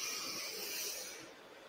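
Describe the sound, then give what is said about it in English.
A deep breath drawn in during a guided relaxation exercise, heard alone as a soft, airy hiss that holds steady and then tapers off toward the end. “Let's all take a deep breath in”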